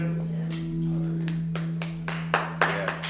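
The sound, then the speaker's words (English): Scattered clapping from a church audience after a scripture reading, starting sparse and growing into a few sharper, louder claps toward the end over a constant low hum. “Sure, you can clap for the word of God.”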